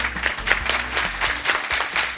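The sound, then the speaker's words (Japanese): Audience applause welcomes a company representative onto the stage at a Japanese investor seminar on a listed infrastructure fund. Many hands clap in a steady, moderately loud patter throughout the short stretch. “皆さん大きな拍手でお迎えください。”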